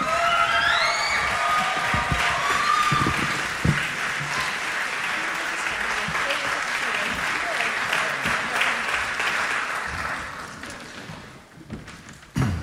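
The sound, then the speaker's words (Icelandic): Audience applause at a music evening where each performer plays three songs: loud, dense clapping with a few whistles early on, holding steady for about ten seconds before fading, then a final thump. “Já, já, gefum við gott klapp.”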